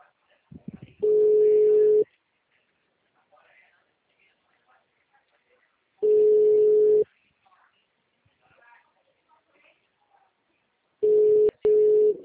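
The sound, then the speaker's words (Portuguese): Ringback tone on an outgoing telephone call sounds as three long, steady mid-pitched beeps about a second each, evenly spaced by quiet gaps; the last is split by a brief click. “pera aí que eu tô ligando aqui pra dona Cleonice”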